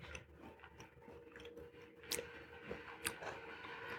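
Chewing of dark chocolate made with Maltine malt drink powder: faint, soft mouth sounds with a couple of sharper crunchy bites standing out, and no talk.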